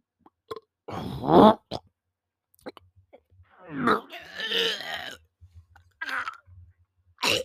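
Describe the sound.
A man burps loudly in a short, gurgling belch, followed by scattered small mouth clicks and longer strained vocal sounds.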